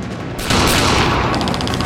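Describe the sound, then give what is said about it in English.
A gunfire exchange in a shootout, with bullets showering crates and metal barrels: a loud, dense, continuous barrage of rapid shots that thickens after a brief lead-in, with bright metallic pinging in the later part. “frantically dodging the gunfire whilst trying to shoot back”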